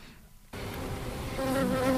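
Honey bees buzz around a hive in a dense, droning hum that starts abruptly after a short quiet moment, then swells louder near the end with wavering tonal whines from individual bees.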